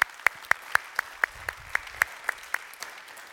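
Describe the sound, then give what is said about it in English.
Sparse clapping comes from an in-person audience at a Grad Sunday gathering, welcoming its online campus. Crisp claps sound in a steady, even rhythm, faint and alone throughout. “So if you guys are here in person, if you would, put your hands together and welcome in our online campus here today.”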